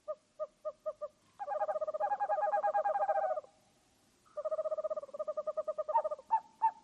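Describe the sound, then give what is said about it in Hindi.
Owl hooting from an owl chick at night: a few short hoots, then a long rapid trilled run, a pause, and another trilled run that breaks into a few louder separate hoots, clear and alone. “एक उल्लू बच्चा। Poly दिन भर सोती और रात भर ऊंची आवाज में गीत गाया करती थी।”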